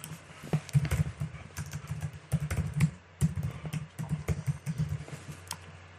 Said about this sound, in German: ich tippe das eben mal in die Kommentare.